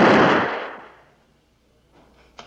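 A single gunshot fired at a rat in a Western film scene: a loud, sharp burst right at the start that fades over about a second, followed by near-silence and a few faint clicks near the end.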